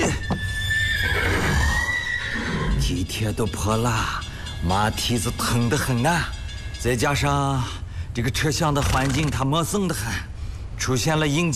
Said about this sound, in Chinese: 来，我来看看这个咬人的马。